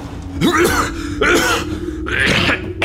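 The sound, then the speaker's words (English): A man is choking, making strained, rasping grunts and gasps in three loud bursts separated by brief pauses. “What is it? What's wrong? I think he's choking.”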